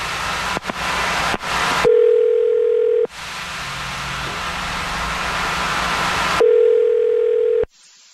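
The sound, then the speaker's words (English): A telephone dials a number: a few sharp clicks, then a steady low tone, a stretch of hiss, and the tone again before it cuts off. “Okay, I'm going to dial his number right now. Here we go.”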